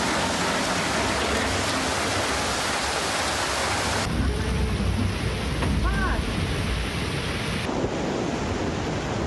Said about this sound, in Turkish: Başkentte öğle saatlerinden sonra başlayan sağanak yağmur etkili oldu.